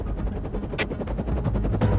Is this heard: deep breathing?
no

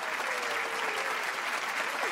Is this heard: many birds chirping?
no

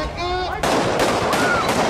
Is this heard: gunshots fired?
yes

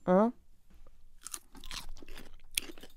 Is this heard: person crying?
no

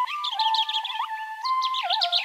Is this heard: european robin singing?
yes

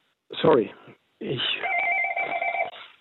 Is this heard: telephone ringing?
yes

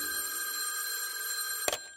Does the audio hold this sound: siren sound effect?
no

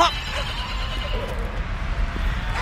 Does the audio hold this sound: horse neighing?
yes

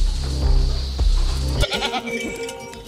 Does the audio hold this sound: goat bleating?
yes

